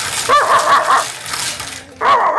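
Dog barks and yips, a dog sound heard during a bingo number call: a quick cluster of sharp, bright barks, a brief pause with a low hum, then another loud burst of barking near the end.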